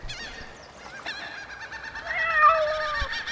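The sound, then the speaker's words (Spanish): Angry seagulls calling: several harsh, wavering squawks that overlap and rise and fall in pitch over a low background murmur, with no voices. “El gatito advierte que son gaviotas enojadas y no vienen con buenas intenciones.”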